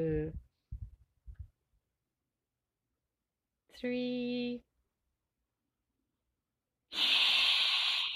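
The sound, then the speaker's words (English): A long, deep breath drawn in through the nose during a guided breathing exercise, heard as a steady airy hiss at the end that follows brief spoken counting. “Let us take a long, deep breath.”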